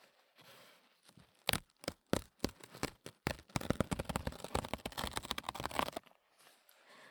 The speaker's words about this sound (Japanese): さりげに結構好きだったりします、キッチンペーパーの音。